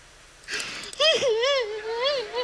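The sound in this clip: A woman crying, beginning with a breathy sob and moving into a long, wavering, whimpering wail that sways up and down in pitch.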